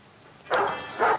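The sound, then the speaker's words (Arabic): Two short, fairly loud dog barks separated by a brief pause. “اول حاجة الكلب، نباح”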